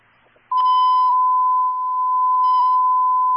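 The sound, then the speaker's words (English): Fire station 27's dispatch alarm tone: a single steady, high electronic beep that cuts in sharply after a brief quiet moment and holds loud and unbroken to the end. “Alarm in 27.”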